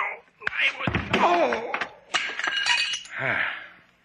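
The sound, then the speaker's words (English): A man is struck over the head with a doll, giving a sharp crash followed by clinking, shattering fragments, with voices talking around it. “Slate, what happened? Why did you hit him over the head with the doll?”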